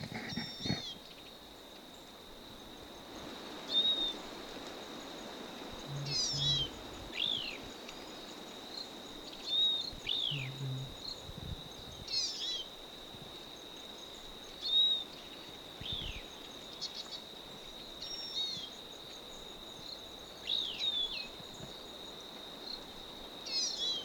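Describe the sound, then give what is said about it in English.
A bird gives many short, high calls that sweep downward, repeating every few seconds. They sound faint over a constant high insect trill. “Stop. Same bird.”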